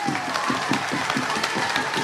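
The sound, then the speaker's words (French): An audience applauds the students who took part in a school competition, giving dense clapping with a steady, pulsing beat running through it. “Et là, vous pouvez une nouvelle fois applaudir l'ensemble des élèves qui ont participé cette année.”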